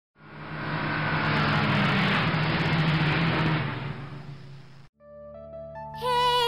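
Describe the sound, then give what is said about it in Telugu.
A car engine rolls into a village, a loud, steady rumbling roar building up and holding for about five seconds before cutting off abruptly into bright musical tones. “రే కారురా ఎవరింటికి వస్తున్నారో ఏమో మన ఊరికి కారులో వచ్చే ఎవర్రా”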